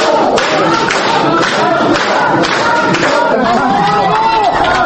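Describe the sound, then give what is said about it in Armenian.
Supporters in a courtroom applaud and cheer after a boxer's verdict, with loud clapping mixed with many shouting voices and crowd chatter that stays continuous throughout. “Դատավորի որոշումն արժանացավ դատարանի դահլիճում հավաքվածների բուրըն ծափահարություններին ու բացականչություններին։”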